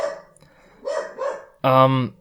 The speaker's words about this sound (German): Dein Hund ist aber heute mitteilungsbedürftig.